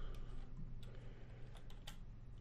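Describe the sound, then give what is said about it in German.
Faint clicks of a right mouse button, a few sharp little taps spaced apart over a soft, steady hum. “Achso, ich drücke einfach nur rechte Maustaste, alles klar.”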